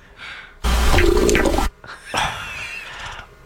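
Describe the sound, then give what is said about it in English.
An amplified stomach rumbling from a man's belly: one loud, wet gurgling burst of about a second, followed by a quieter, lower churning rumble. “That's his stomach. Right in the middle of his podcast.”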